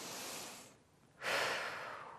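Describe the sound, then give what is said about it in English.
One full cycle of breathing in and out during a stretching pose: a soft, airy breath, a short pause, then a stronger rushing breath that slowly tapers off, quiet and alone. “So stay here for one full cycle of breath.”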